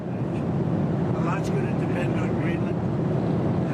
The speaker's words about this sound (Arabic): معذرة، الصوت مشوش جدا في الطائرة.